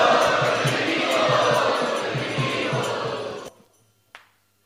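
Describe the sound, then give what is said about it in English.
A crowd loudly chants "Hari Ki Jai" to welcome a guest speaker, making a dense, roaring mass of voices with a steady pulse. The chant cuts off abruptly, followed by a single brief click. “we would like to welcome His Grace Yadubar Prabhu in our midst by loudly chanting, Hari Ki Jai.”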